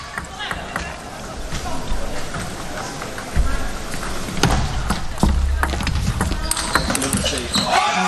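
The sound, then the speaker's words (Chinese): Table tennis ball ticking sharply off bats and table during Wang Chuqin's serve and rally against a South Korean opponent, a series of crisp clicks heard under continuous commentary talk. “好，现在换过来8-10，王楚钦发球。”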